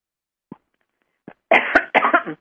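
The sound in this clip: Two rough, loud coughs clear the throat in quick succession, then stop.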